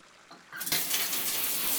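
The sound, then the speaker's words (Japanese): Warm bath water from a shower pours over a person's body, from the shoulders toward the stomach. After a quiet first half second, a steady, full splashing gush starts and runs evenly to the end, with no voices. “じゃあ肩のあたりからお腹に向かってお湯をかけていくわよ。”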